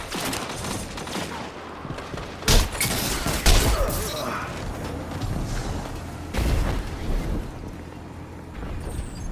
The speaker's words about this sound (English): There's a grenade in there. There's a grenade in there.